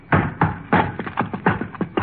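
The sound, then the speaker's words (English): A lock on a trunk shipped from London is broken open: a quick, uneven series of hard, dull knocks and bangs, some coming in close pairs. “There. I broke the lock. Rochester, help me open the trunk.”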